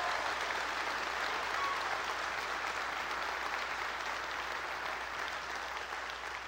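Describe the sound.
Applause greets a church group joining a worship service by live stream: a dense, steady wash of clapping from an audience that holds at an even level for the whole stretch without dying away.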